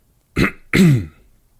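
A man clears his throat in two short, rasping bursts, the second longer and rougher than the first, with silence around them.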